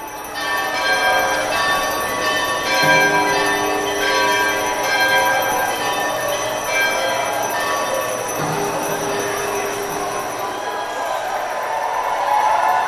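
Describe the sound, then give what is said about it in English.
Ringing of a large cast iron bell joined by a chorus of small handheld bells, rung by museum visitors and staff as a farewell to an old museum space; a dense, continuous shimmer of overlapping metallic tones that stays steady throughout. “Brenda's bell was accompanied by a chorus of small handheld bells rung by Exploratorium visitors and staff, a way of saying goodbye to the old space.”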